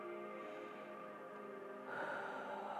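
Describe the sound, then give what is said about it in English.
A slow, deep breath drawn in, soft and airy, over a faint sustained musical drone during a tapping meditation. “So take a deep breath in”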